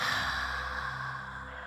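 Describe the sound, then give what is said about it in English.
A long audible exhale after a held breath during a breathing exercise: a single breathy rush of air that fades gradually, heard alone without talk. “And now audible exhale for 4 seconds.”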